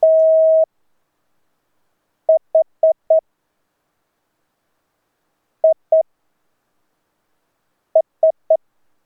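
Morse code sent at five words per minute. A steady mid-pitched tone is keyed in one long dash, then groups of four, two and three short dits separated by long silences.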